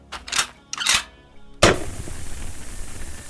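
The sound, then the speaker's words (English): A flare gun fires at a monster with a sudden loud bang, followed by a sustained hissing roar as the flare streaks away. Two shorter, softer bursts come before the shot. “Knowing I only had 1 shot, I stopped running, dropped to my knees, and fired.”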